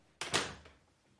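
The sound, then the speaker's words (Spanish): An apartment door is pulled shut as someone leaves: one solid thud with a brief rattle, then a smooth fade into quiet. “sale tras ella. Cierra la puerta.”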